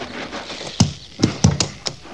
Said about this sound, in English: Like I told the lieutenant, Captain, that horse is mean this morning.